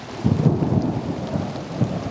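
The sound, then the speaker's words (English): Steady rain falls with rolling thunder, a continuous wash of rainfall under low, rumbling booms that swell a few times, with no voices present. “I just like listening to the rain.”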